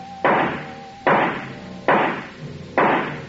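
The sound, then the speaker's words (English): Gunshots from a gun fired at a tree, four sharp loud cracks evenly spaced under a second apart, each with a short decaying tail and no voices. “This time, when he fired, his eyes were closed.”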